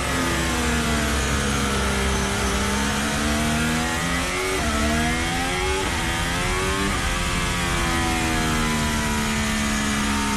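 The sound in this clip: A racing car drives away under loud, continuous engine noise, with a sharp mechanical note. The revs climb and drop several times through gear changes.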